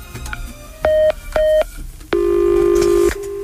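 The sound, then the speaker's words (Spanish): A telephone being dialed to call a listener: two short, clean electronic tones, then one longer sustained tone of about a second. “Ya le puedes marcar, que no te va a contestar.”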